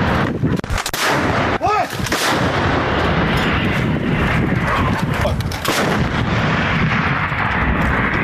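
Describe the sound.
Artillery gun fired by Ukrainian forces in wartime: loud, booming blasts with a heavy, continuous rumble that fills the whole stretch at high volume.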